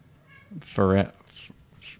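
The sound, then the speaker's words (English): A cat crying in a house: one loud, tonal meow that swells and fades, followed by a few faint, soft sounds. “There's a cat crying.”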